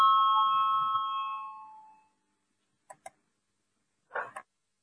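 A chairman's bell rung before a parliamentary vote, its bright metallic tone already sounding and fading out over about two seconds, followed by a few soft clicks in near silence.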